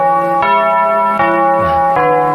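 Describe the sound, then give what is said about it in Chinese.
Clock chime bell ringing with a rich, sustained metallic tone, struck three times at a slow, even pace, each loud strike layered over the lingering hum of the one before. “您记得当时这个钟声是什么声音吗？ 就是现在这个声音。”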